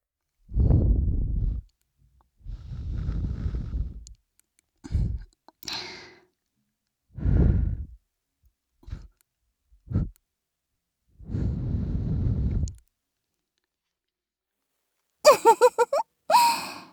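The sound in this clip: Soft breath is blown into an ear as a string of hushed, airy puffs. Some are long and some are short, separated by silences, and a few quick clicky breaths come near the end.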